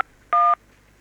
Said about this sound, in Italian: È partita la tastiera.